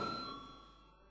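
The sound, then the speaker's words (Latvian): A single faint bell ding sounds in a parliament chamber before a vote, a clear metallic tone that decays steadily over about a second. “lūdzu zvanu”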